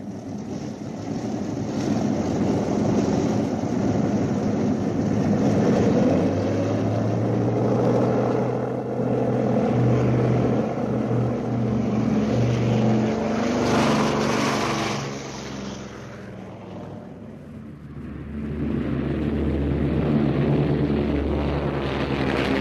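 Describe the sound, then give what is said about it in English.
Propeller engines of a bomber aircraft running before takeoff, a dense, steady low drone that sags in loudness for a few seconds near the end, then swells again. “Radiator's open. Throttle's locked. Throttle's locked. We're prepared to take off.”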